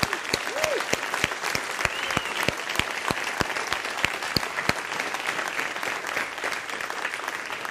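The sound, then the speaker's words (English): A church audience applauds children who have read the Gospel of John, with sustained clapping from many hands and a few louder, evenly spaced claps standing out over the steady patter. “So let's clap for them.”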